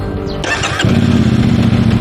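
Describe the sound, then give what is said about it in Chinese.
A modified motorcycle with a loud aftermarket exhaust starts up: a brief starter whir, then the engine catches and settles into a loud, steady, deep rumbling idle that runs to the end. “这辆是咱们顺义交通管理支队近期查获的一辆改装过的摩托车，啊，咱们现在给它启动一下”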